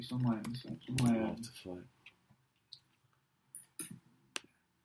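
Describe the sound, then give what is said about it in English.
Scattered clicks of computer keyboard typing follow a voice that speaks first, with a few sharp, isolated keystrokes spaced out in quiet. “Let me type it in”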